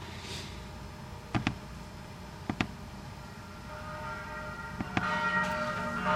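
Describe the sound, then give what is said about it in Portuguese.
Bells ring within religious prayer music: a few bright, sharp strikes come in close pairs, faint over a steady, sustained musical background. “Vocês perceberam os sinos na outra e nessa aqui também, né? Ou seja, a música tem uma outra preocupação. Tudo bem, tem o sino tocando, é meio que nem na igreja, né?”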